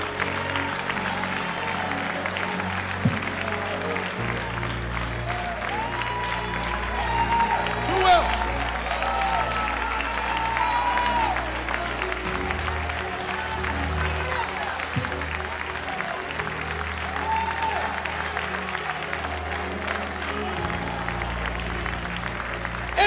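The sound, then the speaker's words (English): A church audience claps during an altar call, producing continuous, even applause that carries on steadily for over twenty seconds. “Go ahead and keep clapping. The hands that clap for souls will never grow old.”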